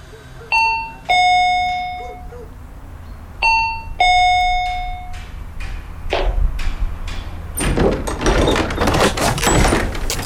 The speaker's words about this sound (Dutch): Even aanbellen.